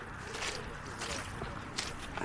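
Footsteps squelch through a very wet, waterlogged meadow, a few soft, wet squishing steps at an uneven pace over a faint, steady background.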